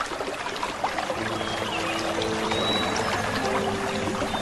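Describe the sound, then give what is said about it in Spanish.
Gentle stream flowing, a steady, soft trickle and wash of water that continues evenly with no pauses. “Llegamos hasta un suave arroyo.”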